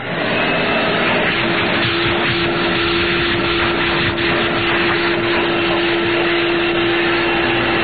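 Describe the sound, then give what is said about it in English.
A vacuum cleaner runs: a loud, continuous droning roar carrying a steady hum tone, unchanging throughout, with no talking. “A vacuum cleaner? All right. Here you go.”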